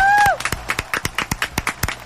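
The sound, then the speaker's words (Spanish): Live applause in a radio studio: a small group claps in a quick, steady rhythm, many sharp claps following a brief voiced sound at the start. “Y esto es un aplauso en vivo. ¡Dale!”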